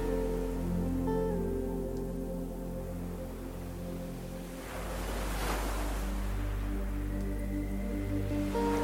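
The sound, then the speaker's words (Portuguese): Ocean waves on a sandy beach: one soft swell rises and washes through midway, with a hiss under a sustained, gentle musical drone that continues throughout. “O som das ondas embala seu corpo.”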